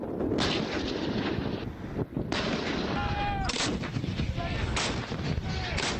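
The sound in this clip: Armoured units fire during a military exercise near a border, with a few heavy, booming shots breaking through a continuous rumble and gusts of wind noise.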